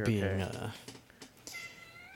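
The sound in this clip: A house cat meows once, a drawn-out harmonic cry at the start, followed by quieter, sparse little noises.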